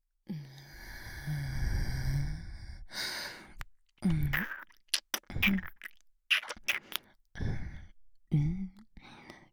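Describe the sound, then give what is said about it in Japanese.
Slurping and sucking as meat from near the brain is eaten: a long, soft, breathy draw followed by several short, wet sucking bursts with brief pauses between them, all quiet and close. “あとは脳みその近くも吸いたいから、ここからもちょっと味見しちゃう。”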